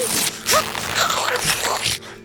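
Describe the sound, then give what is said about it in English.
Tapestry fabric is ripped by a bird's claws in a few harsh, rasping tearing bursts. Each rough, crackling rip is short and fairly loud, and the tearing ends abruptly. “bird's claws ripping at the edges of the tapestry”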